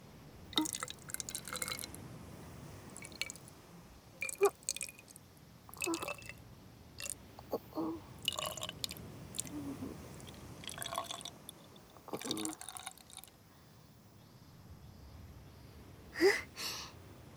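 Seawater spritzed from a mini spray bottle onto sand, many short, faint hissing bursts in irregular clusters with brief wet crackles between them.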